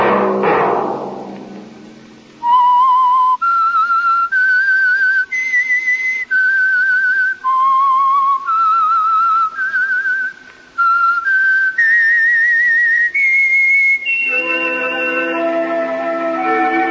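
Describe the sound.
Melodic whistling used as a signal: after a brief fading swell, a single whistler carries a slow tune of sustained, clear notes that rise and fall, ending in a fuller, lower accompaniment.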